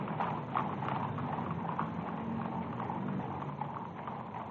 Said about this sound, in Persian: اسواران گارد شاهنشاهی در پشت سر ملوکانه در حال حرکت هستند.